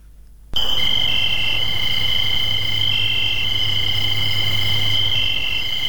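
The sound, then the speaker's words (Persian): A loud, steady, high droning chorus of periodical cicadas, the millions that emerge in parts of the United States after 17 years underground. It begins abruptly after a brief near-silence and continues at an even level with layered whining tones. “دانشمندان میگویند میلیون ها چرچرک دشتی که صدای بسیار بلند دارند بعد از سپری کردن 17 سال در زیر زمین در بخش های از ایالات متحده امریکا”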